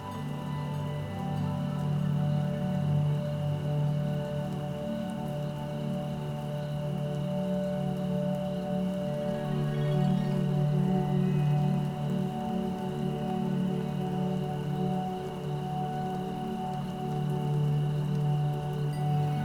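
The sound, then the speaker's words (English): Rain falls steadily and evenly for about twenty seconds, a soft continuous patter layered over a low, sustained tonal drone. “Keep putting your thoughts within a photograph, and then watch it rain.”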